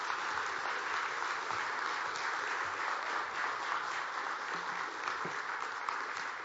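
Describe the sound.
An audience applauds to welcome a guest speaker, with dense, sustained clapping that stays even in loudness throughout.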